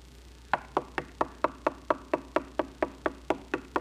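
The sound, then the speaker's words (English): Knocking at a door comes as many even, steady raps in a regular rhythm, each sharp and hollow, with nothing else heard. “a knock at the door. You go to the door, slowly, bewildered, whipped out.”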